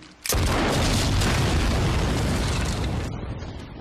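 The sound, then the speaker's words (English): A bridge is blown up in an explosion that starts with one sudden, very loud blast and becomes a dense roaring rumble. The roar holds for about three seconds, then tapers off. “That very loud noise you hear is Rick Grimes blowing up a bridge, and presumably blowing up himself in the process”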